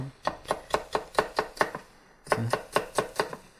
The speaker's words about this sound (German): Aber man kann immer auch die einzelnen Segmente oder Blätter, wie man dazu sagen will, aufeinanderlegen und dann schneiden.